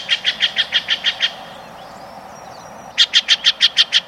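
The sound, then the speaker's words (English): Loud, raucous calls of a Steller's jay, a western jay, come in two rapid, evenly spaced runs of harsh, nasal notes, about eight in each, separated by a short quiet gap. “This loud, raucous call belongs to a common jay of the western states, the Steller's jay.”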